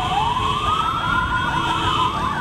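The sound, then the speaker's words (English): Sirens from a heavily armed convoy of about a dozen vehicles racing through the streets of Nablus wail continuously, their loud, wavering tones rising and falling and overlapping above a steady rumble. “Sirens howled from a dozen vehicles as Yasser Arafat's heavily armed convoy raced through the streets of Nablus.”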